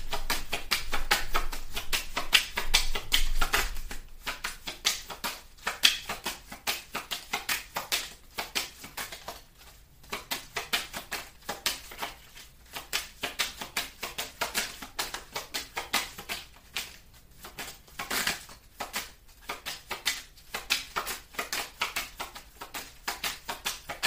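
Tarot cards are shuffled in a continuous, rapid patter of papery riffles and taps that runs for about twenty-four seconds without talk, dipping briefly now and then between bursts.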